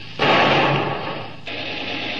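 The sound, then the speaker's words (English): A gunshot fired across the bow of a motor launch that is running without lights: one loud, sudden blast trails off into a long, rough, rumbling tail, with a weaker burst of noise following later. “Put a shot across her bow”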